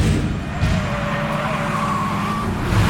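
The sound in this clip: A car speeds along while racing another vehicle, with engine roar and tyre noise forming a loud, steady rush that stays dense throughout.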